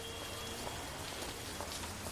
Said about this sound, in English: Heavy rain beats down.